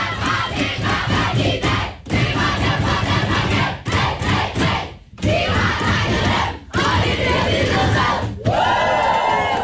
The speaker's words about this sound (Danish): Er lyden fra omklædningsrummet hos det danske VM-landshold.